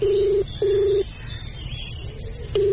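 Ringing tones of an outgoing telephone call: a steady low electronic tone in pulses, two close together, a longer pause, then a third beginning at the end, alone with no talk.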